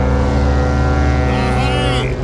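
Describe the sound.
A coast guard boat's engine drones steadily on the water, a loud hum that stays level, while a voice rises briefly over it in the second half.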